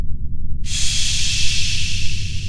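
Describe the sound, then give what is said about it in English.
A long, steady deep breath drawn slowly, a loud even breathy hiss that starts abruptly and holds without a break, with no talking. “Go slow. Take a deep breath.”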